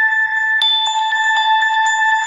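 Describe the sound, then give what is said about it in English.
A phone ringing as a steady, bright electronic tone with stacked harmonics that holds loud through the whole stretch, with a few faint taps on top. “my phone is ringing, so I will take that call later as I'm recording this.”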